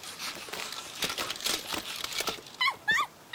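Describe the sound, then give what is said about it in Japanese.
A small puppy whimpers. A stretch of rustling, crinkly noise comes first, then a few high, thin whines that bend up and down near the end. “こんな子犬が何かするわけないよな。どうしたどうした、迷子か。”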